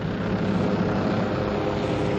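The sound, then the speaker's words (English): A steady low engine drone from police helicopters hovering over a farmers' protest in Washington, a continuous rumble with no voices. “With police helicopters hovering overhead and National Park Police”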